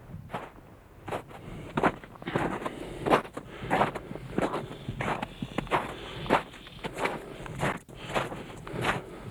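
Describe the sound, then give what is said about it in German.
Footsteps crunching through a snowy forest as a man with a rucksack walks on. Many even, steady steps fall at a regular pace over soft wind noise. “Kross nimmt seinen Rucksack aus dem Kofferraum und geht zu Fuß weiter. Von der alten Kaserne sind es nur knapp 800 Meter durch den verschneiten Wald bis zum Radioteleskop.”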